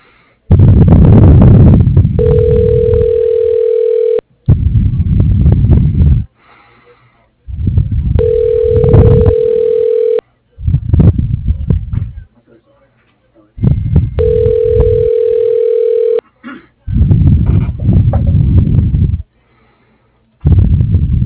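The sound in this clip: Telephone ringback as a call is transferred to voicemail: three steady ringing tones of about two seconds each, spaced several seconds apart, with loud talk-like sound filling the gaps.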